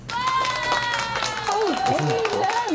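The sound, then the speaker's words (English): Audience applause during a standing ovation for a welcomed guest: a dense spread of many claps running throughout, with voices speaking and calling out over it. “Standing ovation. It's awesome.”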